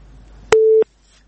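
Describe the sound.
A telephone busy tone after a listener's call-in line to a studio disconnected: one loud, clean, steady beep lasting about a third of a second, with near silence before and after.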